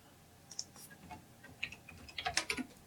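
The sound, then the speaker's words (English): Keystrokes on a computer keyboard as a search term is typed into a search bar: faint, irregular clicking taps that grow denser and quicker toward the end, with no voices. “How about just type in the Google search bar, put Zodiac okay.”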